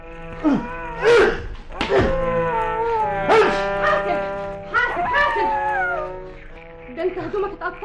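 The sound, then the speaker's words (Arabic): A wolf howls and barks in several loud drawn-out howls whose pitch slides up and down, broken by sharp bark-like yelps. A voice is heard briefly among them. “الله ايه ده؟ الله ده ديب ديب. ما تخافيش ما تخافيش.”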